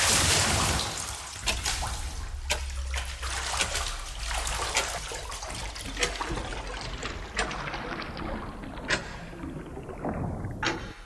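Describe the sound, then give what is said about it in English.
A swimming sound effect of water strokes: many irregular splashes and drips break over a soft watery background, each stroke a short, bright burst of sound. “Let's swim right now together, get your Speedos on. Yes. Swim, swim effect.”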